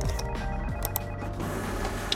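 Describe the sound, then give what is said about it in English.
A printer making a loud, dense mechanical noise. Whirring and buzzing tones run continuously through the short clip without pause. “Liam was so caught up in the moment that he had completely forgotten about the problems with that damn printer. But it was too late. This time it was much louder than before”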